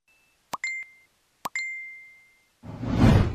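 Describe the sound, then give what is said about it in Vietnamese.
Notification chime from the SOS An ninh Trật tự security app plays twice, each time a short plop and then a bright, ringing ding that fades slowly. A dense, noisy swell follows at the end. “Các bạn có nghe thấy âm thanh quen thuộc vừa rồi không ạ? Không phải là thông báo Messenger hay là nổ đơn đặt hàng trên sàn cam đâu. Đây chính là âm thanh thông báo từ ứng dụng SOS An ninh Trật tự.”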